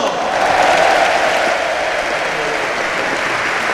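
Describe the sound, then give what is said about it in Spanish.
Loud applause from the crowd at a basketball game as a player is introduced, a dense, steady roar of clapping that swells early and then holds. “Fuerte aplauso ahora para otro que veremos si nos hace cambiar el idioma. ¡Matt Costello!”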